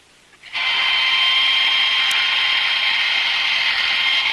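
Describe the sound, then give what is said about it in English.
A power drill boring through a vault door gives a loud, steady, high-pitched whirring grind. It starts after a brief quiet moment and holds constant, without pauses, to the end. “Meanwhile, Louis drills through the vault door.”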